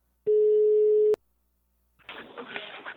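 A telephone line tone while a call is being placed: one steady mid-pitched beep lasting about a second, ending in a sharp click. After a short silence, rougher, noisy sound follows.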